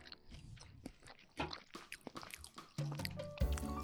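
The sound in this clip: Soft, moist chewing and biting while tasting French fries, with many small crunchy and squishy bursts in an irregular rhythm, quiet throughout.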